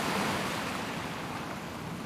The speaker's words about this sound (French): Une immense étendue d'eau, comme le décrivait mon livre. Une eau contenant plus de sel que ce qu'un marchand pourrait vendre durant toute sa vie.